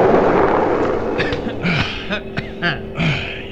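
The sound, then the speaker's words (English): An explosion in an audio drama bursts as a loud, broad rumble that fades over about a second, followed by voices and scattered smaller bangs. “You okay? I think so. But, Mark, you nearly took the blast. You would have gotten the whole thing if I hadn't.”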